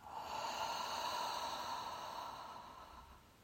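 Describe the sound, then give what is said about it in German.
Deep breathing during a guided breathing exercise: a single long, airy breath sound lasting about three seconds, soft and steady, fading gently at the end. “und aus. Noch einmal tief ein und aus.”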